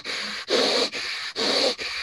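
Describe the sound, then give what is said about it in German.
Slow, deliberate breathing demonstrated at two seconds in and two seconds out, heard as five audible breaths in a row that alternate between softer, thinner ones and fuller, louder ones, with brief gaps between them. “Oder dass du sagst, ich atme zwei Sekunden ein, zwei Sekunden aus. Dann, dann würde es zum Beispiel so aussehen.”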